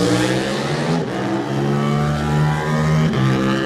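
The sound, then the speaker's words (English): A Yamaha 700 sport motorcycle accelerating away in a road race, its engine revving hard with a strong buzzing tone that climbs in pitch, drops sharply at a gear change, then climbs again. “First of our sport bikes now, and this man's campaigned this for a few years now, Barry Ferber, the 700 Yamaha away.”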